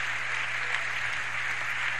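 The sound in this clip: Sustained applause from a church audience: a dense, steady wash of clapping with no single claps standing out, holding at an even level the whole way through.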